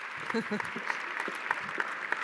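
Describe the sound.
Audience applause welcoming a guest to the stage at Indiana Wesleyan, a steady wash of clapping that runs throughout, with a voice speaking over it at the start.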